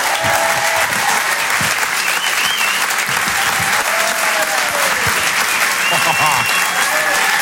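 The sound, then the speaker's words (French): Loud audience applause and cheering at a French comedy show, sustained clapping from a big crowd with whistles and shouts riding over it throughout. “Je vous demande un maximum de bruit, s'il vous plaît, pour Jérémy Crenneville.”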